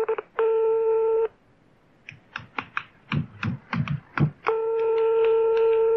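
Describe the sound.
A telephone number is dialed for a call to a karaoke venue: a steady electronic tone, a quick run of short clicky key beeps, then the steady tone returns.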